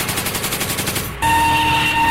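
Gunfire from a police sharpshooter on the firing line: many shots in a rapid, regular burst, then a loud sustained noisy roar with a steady tonal hum.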